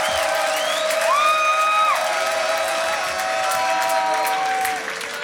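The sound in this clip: Audience at a big live event cheering and applauding in a loud, steady roar of clapping and raised voices that holds throughout and eases slightly at the very end.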